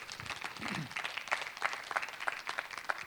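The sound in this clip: An audience applauds to welcome a speaker at an evening church gathering, with soft, scattered claps rising into sharper individual hits at an uneven rhythm.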